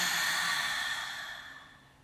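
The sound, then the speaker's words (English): A long, deep breath released in a soft, airy rush of air, starting fairly strong and fading away gradually over about two seconds, with no talking. “Really deep breath in through your nose, not your mouth. So breathe in. And release it.”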